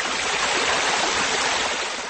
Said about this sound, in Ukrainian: він же символ міста – слон Катанії. Фігура тварини з чорного вулканічного каменя, а над нею височіє білий єгипетський обеліск із граніту. Внизу хлюпочуть невеличкі водограї.